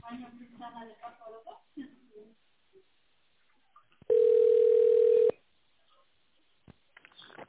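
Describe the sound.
A single steady telephone ringback tone, about a second long, sounds on a company's phone line while the caller waits for an operator. It follows a recorded voice announcement and stands alone against near silence.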